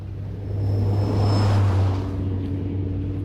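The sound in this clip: A bus drives past without stopping: a steady low engine rumble swells to a peak midway, then eases off. No voices are heard.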